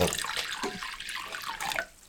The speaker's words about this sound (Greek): Χλιαρό το νερό. Λίγο χλιαρό νερό.